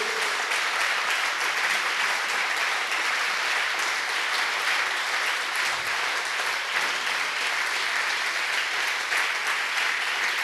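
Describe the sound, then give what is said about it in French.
An audience claps in praise of the Lord during a church worship service, a dense, steady applause that holds at an even level from start to finish with no voices over it. “Acclamons encore le Seigneur. Let's clap for the Lord again.”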